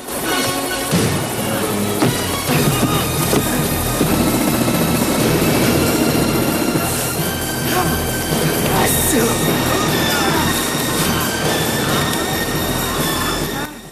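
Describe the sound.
Helicopter engine roar with a steady mechanical whine during a fight aboard the chopper. It stays loud and continuous, with heavy impact hits and metallic screeches cutting through.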